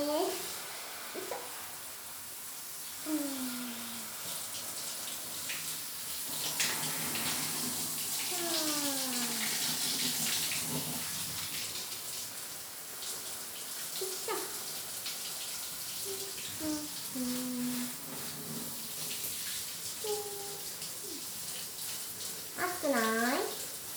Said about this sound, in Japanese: お湯かけていくね